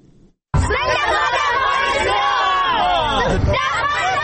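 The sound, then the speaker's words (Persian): Afghan children in national dress, faces painted and flags in hand, loudly chant slogans together at an Independence Day celebration in Kabul. After a brief quiet start, many young voices shout in a sustained, dense and unbroken chorus. “این صدای کودکان افغان است که به خاطر تجلیل از جشن استرداد استقلال افغانستان شعار سر می دهند.”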